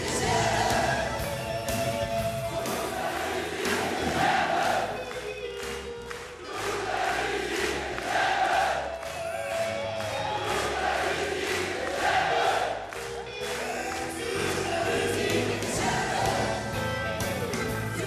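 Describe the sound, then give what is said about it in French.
A concert audience sings along with the singer at the Olympia in 2000, a loud, sustained mass of voices over a steady rhythmic pulse that carries through the whole passage with only slight dips in level. “Une chanson dont le public ne se lasse pas, au point de la connaître par cœur et d'accompagner le chanteur comme ce soir-là à l'Olympia en l'an 2000.”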